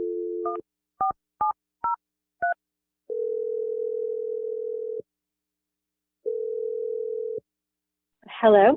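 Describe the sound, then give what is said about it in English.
Touch-tone beeps of a phone number being dialed, five short tones in quick succession, followed by two long, steady ringback tones and a brief voice at the very end. “I'm dialing her number right now.”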